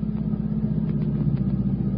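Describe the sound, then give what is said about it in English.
A Cadillac engine rumbles steadily during a chase after a mail truck, a low, continuous mid-pitched drone with slight fluctuations, moderately loud and without talk. “surely you can hang on to a mail truck with a Cadillac.”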